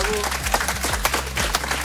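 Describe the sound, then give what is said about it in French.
Audience applauding a dance crew at a live radio event in Caen, brisk, steady clapping with individual claps standing out against a continuous low hum. “Bien évidemment, vous pouvez les applaudir, SNT Crew. Bravo. Bravo.”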